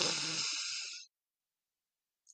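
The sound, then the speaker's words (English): A single deep, airy breath drawn in for about a second, loud and rushing, then cut off into silence with only a tiny faint click just before the end. “So deep breath in”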